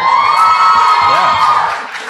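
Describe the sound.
Audience cheering at a fan panel, with high-pitched shrieks and whoops from many voices rising together into a loud burst before easing off slightly.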